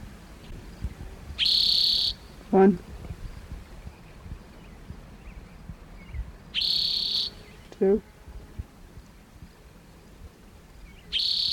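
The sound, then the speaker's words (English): Spotted toad calls: three high, buzzy trills, each about half a second long, repeat at even intervals. A brief, lower rattling note follows the first two, all over a faint background hiss. “Here's spotted toad number one.”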